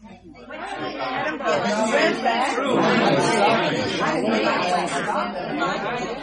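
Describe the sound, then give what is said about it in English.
Loud, continuous chatter from some 300 Americans crammed into a Scottish hotel lobby: a dense babble of overlapping conversations that swells after a quiet start and stays at a steady level. “Now you know what 300 Americans sound like. 300 Americans in one Scottish hotel lobby.”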